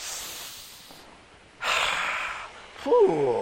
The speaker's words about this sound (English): Take a deep breath. Like this. Like this. Take a deep breath.